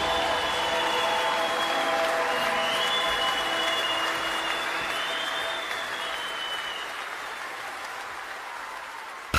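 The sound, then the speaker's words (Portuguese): Sustained applause from a crowd called to clap in praise at a Christian gathering. The clapping is steady and even, easing slightly in loudness toward the close. “Vamos aplaudir aquele que vive e nos envia.”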